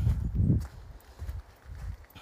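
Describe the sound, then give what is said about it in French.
Footsteps walk toward a lighthouse in fog as several soft, low thuds in an uneven rhythm, heaviest at the start and fainter after. “donc là je marche vers le phare dans le brouillard”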